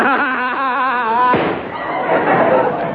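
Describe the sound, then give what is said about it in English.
A single sharp gunshot, a man shooting himself, bursts in after a stretch of strained, voiced sound and is followed by a rough, noisy tail. “Ooh. He shot himself.”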